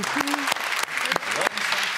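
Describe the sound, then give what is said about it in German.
Applause from the studio audience of a German television quiz show: dense, steady clapping throughout, with a voice talking over it. “Wann hast du von deiner eigenen Frau das letzte Mal so viel Applaus gekriegt?”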